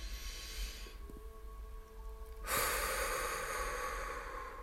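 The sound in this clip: A deep inhalation during a guided relaxation breathing exercise: a quiet low hum at first, then a steady, airy rush of breath that swells abruptly and holds for about two seconds until the end.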